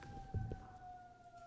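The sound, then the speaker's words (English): A passing siren sounds faintly as a steady wail whose pitch drifts slowly downward, with a couple of brief low knocks early on. “I just don't want to run competition with this siren. We'll let it go by.”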